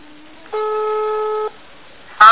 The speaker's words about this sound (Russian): Алло, ну что ты трубку бросаешь, я твой внук.